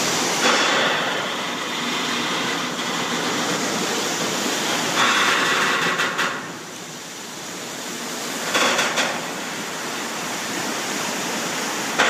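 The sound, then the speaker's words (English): Shipping containers stacked aboard the Matson container ship MV Mokahana grind against each other at sea above the surging ocean: a continuous rushing roar, broken by a few harsher, brighter grinding swells. “What you're hearing are shipping containers stacked aboard the Matson container ship MV Mokahana, grinding against each other with the ocean surging below.”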